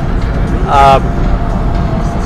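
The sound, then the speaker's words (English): Loud wind roar through open car windows while driving, a dense, constant buffeting rumble that fills the whole stretch and swells briefly near the middle. “hopefully the wind from my vehicle, I'll roll up the windows a little bit.”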